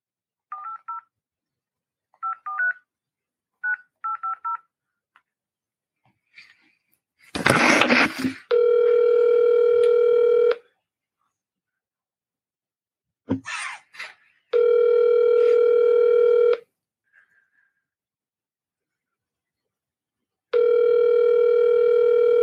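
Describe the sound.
A police detective's telephone call being placed: several short keypad beeps in quick groups, a brief burst of noise, then three long, steady ringing tones separated by silent gaps.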